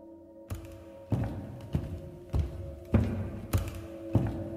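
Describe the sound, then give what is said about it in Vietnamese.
Footsteps climb stairs outside a door: seven evenly spaced, dull, heavy thuds at a slow, steady pace over a low sustained drone. “Rồi nghe ở bên ngoài cầu thang có tiếng bước chân đang đi lên.”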